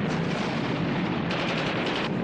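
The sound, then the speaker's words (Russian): Wartime battle noise as Red Army soldiers fire PPSh submachine guns and anti-tank rifles at aircraft overhead. The gunfire forms a dense, continuous, loud roar with no clearly separate shots, and no voices. “Некоторые красноармейцы стреляют по самолетам из ППШ и противотанковых ружей.”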